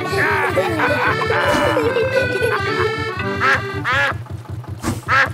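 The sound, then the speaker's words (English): Quacking of a cartoon duck swimming beside a canal boat: a few nasal quacks over a steady, rhythmic musical backing. “Mrs. Duck is going faster than our boat. Want a race, do you, Mrs. Duck?”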